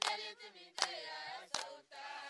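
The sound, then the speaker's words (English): A crowd of enthusiastic women in Wantugu, a small settlement near Tamale in the Northern Region, sings in sustained voices, punctuated by about four sharp, evenly spaced claps. “This singing and clapping is coming from a crowd of enthusiastic women in Wantugu, a small settlement not far from Tamale, Northern Region.”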